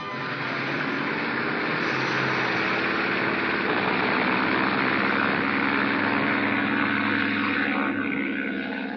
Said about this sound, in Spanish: ¡Giro la hélice! ¡Gire la hélice!